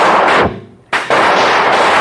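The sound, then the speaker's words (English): Rifle fire in a radio western drama, with shots fired from cover at attacking braves: a loud booming blast fades away, then after a short lull a sharp crack leads into more heavy, sustained firing. “The lieutenant was lifted to safety just in time, and the Lone Ranger pulled himself up after him, took cover, and returned the Indians' fire.”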